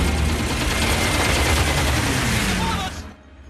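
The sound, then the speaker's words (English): A bomber gunner's machine gun firing: a dense, loud, continuous rattle of rapid shots that cuts off abruptly after about three seconds. “One of the bomber's gunners opens fire.”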